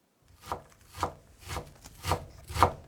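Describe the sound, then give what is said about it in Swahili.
A knife chops onions on a board, slicing them lengthwise about 2 mm apart and then into small pieces: five evenly spaced, dull strokes with a light scraping edge, alone without voices. “Kwanza tutakatakata vitunguu na uyoga. Katakata vitunguu kiurefu kwa mpishano wa takribani milimita 2 kisha ukikate kuanzia pembeni vipande vidogo vidogo.”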